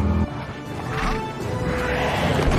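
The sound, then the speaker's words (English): Crash of a truck slamming into a creature and running over it: a sudden heavy impact gives way to a sustained, noisy rumbling crash with a harsh, roar-like rise in the middle. “The truck slams into the creature and runs over it.”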